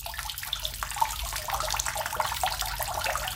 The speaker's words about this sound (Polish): Woda!